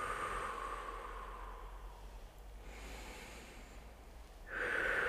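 Slow breathing in and out: long, soft, airy breaths with a short pause between them. A sharper, louder breath begins near the end. No talking.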